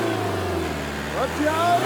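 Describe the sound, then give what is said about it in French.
A car engine hums in a steady low drone, then revs briefly toward the end as it is pushed to accelerate, with voices talking over it. “Accélère un coup maintenant,”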